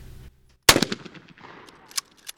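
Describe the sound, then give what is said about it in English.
A shotgun fired at a clay target during trap shooting practice gives one sharp, loud blast with a decaying tail, followed by a few softer noises. “a new member prepares to aim his shotgun and attempts to shoot a clay target out of the air”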